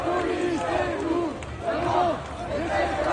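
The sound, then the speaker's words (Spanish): Protest crowd in Lyon, France, demonstrating against a lack of investment in education, many voices chanting in repeated rising-and-falling shouts over a steady crowd murmur. “este es el sonido de Lyon, donde ha habido protestas, no solo en Lyon, en realidad en todo el país, contra la falta de inversión en educación.”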